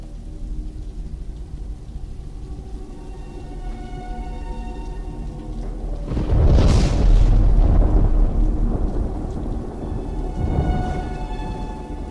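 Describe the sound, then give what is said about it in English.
Rain lashing a window during a thunderstorm: a steady hiss of rain with a loud, deep thunder roll swelling midway and a smaller rumble later. “walks back to the rain-lashed window, staring out as the lightning flashes”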